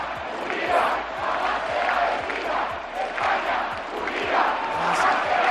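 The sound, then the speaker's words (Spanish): A large crowd protests the amnesty law in Madrid, a dense and continuous roar of many voices shouting and chanting, swelling and easing in waves at a steady, fairly loud level. “Este es el ambiente que se escuchaba en Madrid, donde según el Partido Popular había casi 1 millón de personas”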